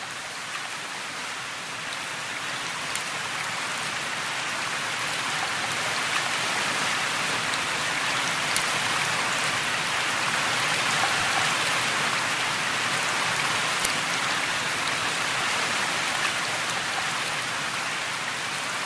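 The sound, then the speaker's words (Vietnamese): Heavy rain pattering on a tin roof, a dense, steady drumming hiss that stays loud and even throughout, with no voices. “Chiều nay lại mưa, tiếng mưa rơi nặng hạt rào rào trên mái tôn.”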